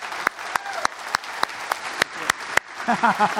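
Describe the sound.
An audience applauds to welcome a speaker at an evening event, with rhythmic, sharp claps at a steady pace. A voice rises over the clapping near the end.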